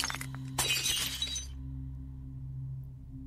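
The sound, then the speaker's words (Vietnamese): Ceramic offering rice bowl falls and shatters on the floor: one sudden crash bursts into a spray of bright breaking fragments, then fades within a second, leaving only a steady low hum. “va cả vào bát cơm cúng để trên nắp ván thiên. Bát cơm rơi xuống đất, vỡ tan tành.”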